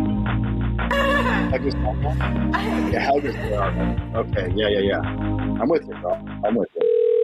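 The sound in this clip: A telephone ringing on a call, heard as a brief steady electronic tone at the very end, after a stretch of people talking over a busy background.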